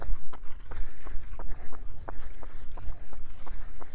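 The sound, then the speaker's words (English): Footsteps of a person walking as they step off a road, a steady series of many crunchy, evenly paced steps with some low rumble underneath. “So now we're gonna step off the road and wait a bit. I'll just walk.”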